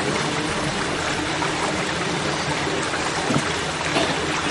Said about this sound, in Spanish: No sé si se oye atrás un ruido como de río.